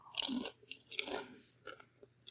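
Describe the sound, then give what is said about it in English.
Quiet, close chewing of popcorn with irregular crunchy bites and moist smacking, busiest near the start and alone without talk. “This is why we have popcorn for this podcast. Okay, if you don't like the ASMR smacking, I don't either.”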